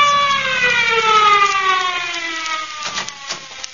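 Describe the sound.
An ambulance siren wails loudly, its tone and strong harmonics sliding steadily downward in pitch, then trails off into a few thumps and rustling noise.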